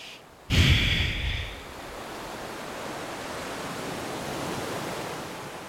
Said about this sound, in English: You have the beautiful waves slowly crashing down,